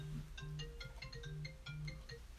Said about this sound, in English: It's your phone.